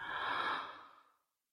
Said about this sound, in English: Breathe in,